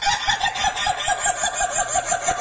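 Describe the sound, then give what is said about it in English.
Chickens clucking near a golf course: a fast, steady run of many rhythmic clucks that carries on continuously without any voices. “There were chickens right nearby, and that's what they sounded like every time we tried to tee off.”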